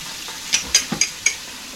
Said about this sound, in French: Oui, c'est le bruit de mes bagues.